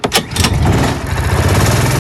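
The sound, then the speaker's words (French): An adult go-kart engine at a leisure karting track fires up with a couple of sharp bursts, then settles into a loud, steady, rattling buzz that cuts out briefly near the end. “Ça, c'est le bruit du moteur à l'allumage d'un karting adulte à partir de 14 ans.”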